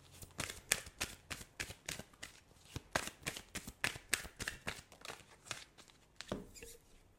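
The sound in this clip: Healing mantra cards are shuffled in many quick, rhythmic riffling bursts, soft and papery, with brief gaps between them and no talk.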